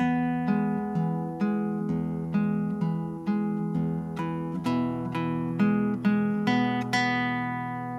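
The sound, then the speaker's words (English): A guitar plays the opening four measures of a song verse built around an E chord, with many steady, ringing chord strikes in an even rhythm and the bass shifting partway through. No voice is heard. “the first four measures of the verse are based around an E chord, and they sound like this.”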